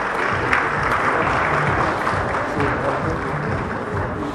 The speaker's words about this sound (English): Please give him a round of applause.